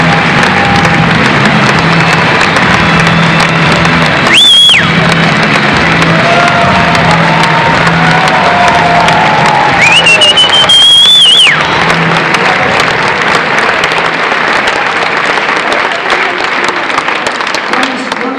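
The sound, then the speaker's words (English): Audience applause and cheering in a standing ovation for two performers: dense, steady clapping runs throughout, with two piercing whistles rising above the crowd and voices mixed in. “So please give them a huge standing ovation.”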